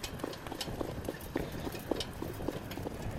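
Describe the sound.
Hooves of a horse walking on the ground with a slightly uneven, favouring gait: many soft clip-clop thuds in a steady rhythm, fairly quiet, with no talking.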